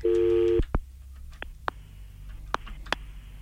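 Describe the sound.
A phone call is dialed: a steady electronic tone cuts off, then a few short keypad beeps follow at uneven intervals, thin and fairly faint, with no talk.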